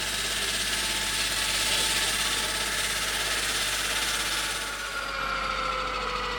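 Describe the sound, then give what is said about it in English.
Enormous circular diamond saws spin up to cut through bedrock, a continuous loud mechanical whir and grinding drone with a steady hum beneath, holding level apart from a brief dip near the end. “over near the mikveh, the enormous circular diamond saws began to spin.”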